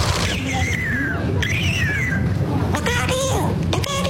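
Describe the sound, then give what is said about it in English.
Bird call, heard as two drawn-out, wavering high whistles followed by a few shorter harmonic chirps over a steady, noisy background. “You hear that? It sounds like a bird saying, look out here, look out here.”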